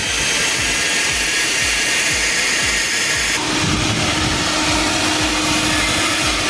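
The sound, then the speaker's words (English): A leaf blower runs with a silencer fitted over its tube, a steady, loud, rushing roar that holds without a break and shifts in tone about halfway through. “This is a leaf blower without the silencer on it. Right? All right. Okay. Yeah, I know that sound. Yeah, we're very familiar with that sound. Here's the one with the silencer.”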